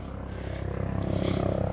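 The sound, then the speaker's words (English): A helicopter flies overhead. Its rotor makes a rapid, even, low thumping that grows steadily louder. “Oh, helicopter coming over.”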